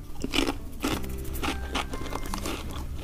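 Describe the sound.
Crisp bites and crunching of asparagus-flavoured Chip Star stacked potato chips from Yamazaki Biscuits: a few faint, irregular crunches with soft chewing between them.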